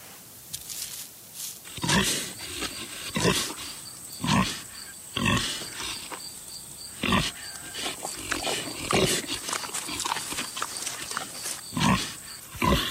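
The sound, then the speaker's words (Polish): Wild boar grunting and snorting: many harsh, loud bursts at irregular intervals, some short and some drawn out, over a faint steady background hiss. “Toż to dzik, kto zabroni z dzikiem spacerować, tak właśnie napisał Mateusz.”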